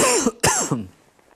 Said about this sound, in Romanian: Mă voi folosi de această tuse ca să permitem și alte tuse